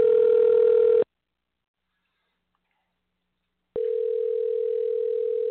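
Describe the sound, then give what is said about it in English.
A steady telephone dial tone hums at a constant mid pitch for about a second while a call is being placed. It cuts to silence for nearly three seconds, then returns just as loud and unbroken until the end. “Bear with me a second here while we dial him up.”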